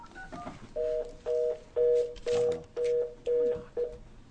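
Telephone keypad dialing: seven steady, evenly spaced touch-tone beeps of moderate loudness, each about a quarter second long, with faint softer tones just before them.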